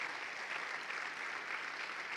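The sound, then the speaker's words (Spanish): A church audience applauds, a faint, even wash of many hands clapping that continues without a break for the whole moment. “vamos a dar un aplauso al Señor”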